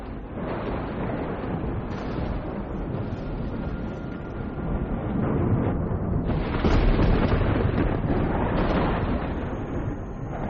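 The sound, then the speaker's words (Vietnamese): Deep, continuous rumbling thunder breaks out suddenly in calm weather and rolls on for about ten seconds. It is a dense, low roar that swells somewhat midway, with no distinct separate claps. “thời tiết hôm ấy đang yên đang lành, tự nhiên nổi lên sấm động ầm ầm.”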